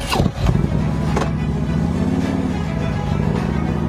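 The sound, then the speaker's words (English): A motorcycle rides off. Its engine gives a loud, continuous low rumble, with a few brief bursts near the start before the rumble settles into a steady drone. “And he rides off on his bike.”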